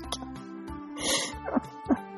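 A person snoring with rough, grunting, pig-like snorts: a broad noisy breath, then two short, sharp snorts, all fairly faint.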